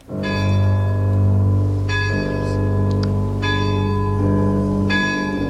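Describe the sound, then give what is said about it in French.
A large castle clock bell strikes midnight: a few deep, resonant strokes ring loud and sustained, each blending into the lingering hum of the last, with no voices. “C'est la grande horloge du château qui sonne les 12 coups de minuit.”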